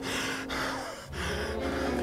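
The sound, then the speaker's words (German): Heavy, asthmatic panting from someone close behind, a few rasping, wheezy breaths in a steady rhythm over a low, constant rumble. “Gleich darauf höre ich es hinter mir schwer und asthmatisch keuchen.”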